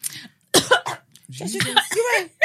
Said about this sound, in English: Sorry, I agreed with you so much. I choked. Sorry, I took a big intake of breath and I was thinking, same. But I choked, sorry.